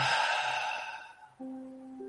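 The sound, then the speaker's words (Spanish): A breathy exhale through the mouth during a breathing exercise: a soft, airy rush that fades after about a second, followed by a steady low tone. “Tomamos aire por la nariz, inhalando. Exhalamos aire por la boca.”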